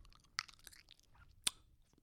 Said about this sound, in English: you are 100% one of those people that eats with their mouth open, smacking their lips.